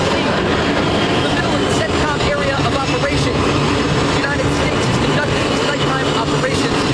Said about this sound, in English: The explosion of energy shakes the floating ground as an F/A-18 Super Hornet soars into the sky.